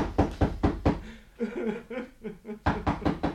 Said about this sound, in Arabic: اما خبط عليه.